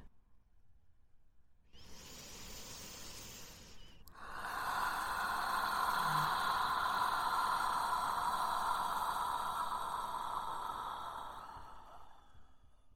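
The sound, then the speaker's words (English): Deep belly breathing during a breathwork exercise: a soft, airy breath for a couple of seconds, then a louder, broad, sustained rush of air lasting about eight seconds before it tapers off. “Take a deep belly breath.”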